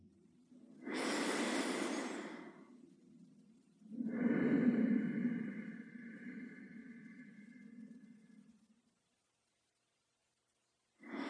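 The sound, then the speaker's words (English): Slow, rhythmic breathing through the nose, two long, soft, airy breaths followed by a pause before the next breath begins, quiet and unhurried. “So let's just breathe a few low and slow and rhythmic breaths through the nose in preparation.”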